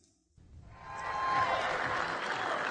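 A crowd at CPAC applauds to welcome Betsy DeVos. The clapping swells up after a brief quiet start, then holds as a dense, steady ovation.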